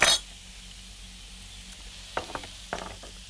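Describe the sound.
Onions frying in clarified butter in a pan: a soft, steady sizzling hiss after a brief louder burst at the start, with a few sharp crackles and pops later on.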